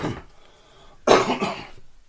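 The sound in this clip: A person coughs and clears a frog from the throat: one loud, rough cough burst with a second raspy pulse just after, following a quieter breathy stretch.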